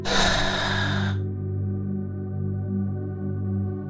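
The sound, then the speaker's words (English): A single deep, airy breath during a guided relaxation breathing exercise lasts about a second, then a soft, steady musical drone carries on alone. “Again, inhale through the nose, exhale through the mouth, letting your shoulders fall.”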